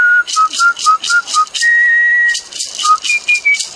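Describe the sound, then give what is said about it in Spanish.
A man whistles a tango, loud and clear: a run of short, bright, pitched notes in a lively rhythm, broken by one long held note midway, with no talk. “con su silbido, interpreta tangos,”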